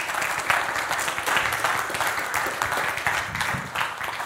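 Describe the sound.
A church audience applauds a guest speaker with a steady, dense clapping that stays even in loudness from start to finish.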